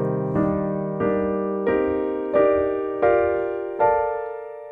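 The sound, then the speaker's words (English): Jazz piano plays a C minor arpeggio from the root up to the 13th in locked-hand block voicings, a series of rich chords struck one at a time. The chords climb steadily in pitch, each ringing out and fading before the next. “So now I want to do the C minor sound from the root to the 13th, the same using my locked hand voicings, my same locked hand voicings, but I want to move in arpeggio motion.”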